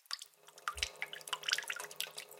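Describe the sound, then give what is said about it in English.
Water dripping from a leaky sink faucet, many faint, quick, irregular drops tapping and splashing in close succession. “The sink was his life. The little beads of water were desperate to escape, slipping into the pipes”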